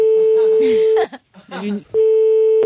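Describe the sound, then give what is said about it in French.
Telephone line tone while calling people at random, two long steady ringing tones at a constant pitch separated by a short stretch where a voice speaks briefly. “On va appeler des gens au hasard pour voir si ça fait peur.”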